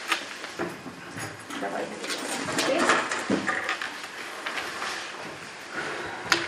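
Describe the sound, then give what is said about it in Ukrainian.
A transparent box being opened, giving scraping and knocking clatter over a busy, noisy background with voices murmuring throughout. “Прозора скринька із нашими голосами. Зараз я її відкриваю.”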